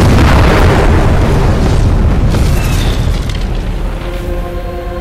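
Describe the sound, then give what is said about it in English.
A torpedo strikes a ship's starboard side in a loud, deep explosion. The heavy rumbling blast fades slowly over several seconds. “A another strikes her starboard side, its blast flinging a confetti of corpses 60 feet into the air.”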